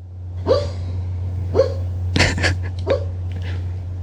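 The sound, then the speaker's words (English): A pet dog making noises while dreaming in its sleep: a few short, muffled woofs or whimpers and one sharper snort-like burst, spaced irregularly over a steady low hum. “I woke him up. That is my... That's my dog, Rocco, dreaming over there. Keep it down.”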